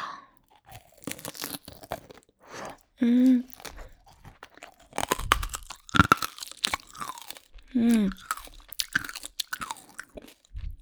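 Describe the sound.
Someone bites and crunches a candied hawthorn skewer, making many sharp, crackling crunches of hard sugar coating mixed with wet chewing, in irregular bursts with short pauses between.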